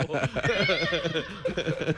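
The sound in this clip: A horse whinnies, a loud, shaky neigh with a wavering pitch that fills about two seconds.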